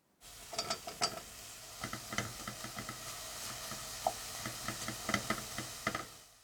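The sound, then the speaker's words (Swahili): Mushrooms and onions frying in a pan over low heat, with many irregular knocks and scrapes of stirring over a soft, steady sizzle. “Kaanga uyoga hadi uwe laini na uwe pue.”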